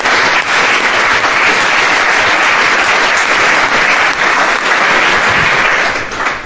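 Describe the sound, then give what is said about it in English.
Loud, sustained audience applause welcomes Chris Patten at a talk marking the paperback publication of his book. The dense, steady clapping runs throughout and eases slightly at the very end. “I think I'd first like to ask you to join with me in giving him a very, very warm welcome.”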